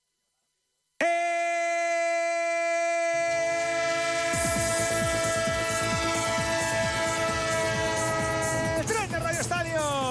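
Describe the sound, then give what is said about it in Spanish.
A passing-train sound effect opens after a second of silence with a loud, steady chord of horn tones, then a low rumble of rolling wheels and carriages joins and carries on to the end, the horn fading into the rolling noise. “Tren de Onda Cero, el tren que pasa a las 4 puntual”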